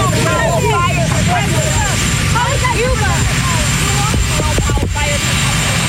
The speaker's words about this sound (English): the noise in the background is because of Lockheed Martin and their Sikorsky division. That's called Marine One, making all the noise.